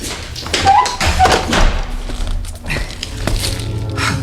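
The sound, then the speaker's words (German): A bolt clunks open on a padded cell door, a few knocking thuds and taps in a short rough burst, with no voices. “Ich öffne den Riegel.”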